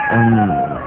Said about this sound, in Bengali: হ্যাঁ সেরকম, হ্যাঁ একটা কুকুর আর একটা বিড়াল একসাথে কাঁদছে।